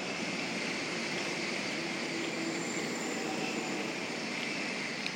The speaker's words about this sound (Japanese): N700A が走っていきましたよここめっちゃ新幹線見れるやん